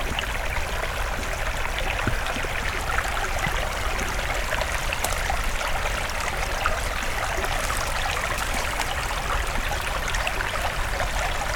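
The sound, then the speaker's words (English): Water draining out through old, heavily rusted steel tubes laid long ago in an attempt at a bridge, giving a constant, even rush and trickle that never lets up. “Just some old steel tubes, it looks like, actually. Yeah, this is definitely draining out.”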